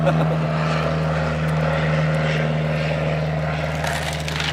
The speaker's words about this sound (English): Is this a takeoff or a landing? That's a takeoff.